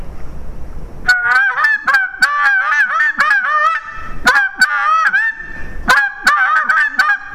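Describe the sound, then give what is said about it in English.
Goose honks blown on a small tube goose call, used to make a turkey answer: three bursts of rapid, nasal honking, each a quick run of loud calls, with no voices. “And I take a little tube call like this and a goose call with it to make a turkey answer.”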